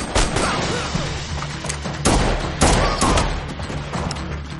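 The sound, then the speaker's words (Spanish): Gunfire and impacts crash through a fight scene in the John Wick film (2017), set in a gallery: a dense, continuous din of bangs and thuds, with two louder blasts standing out in the second half. “Mata a los que se acercan. Se levanta y dispara al del suelo. Combate en otra galería.”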